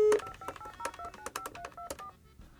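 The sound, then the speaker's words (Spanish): A telephone keypad dials a number with DTMF tones: a quick run of many short dual-tone beeps separated by brief gaps. The beeps are moderately loud and no voices are heard. “Sale, estamos marcando de nueva cuenta.”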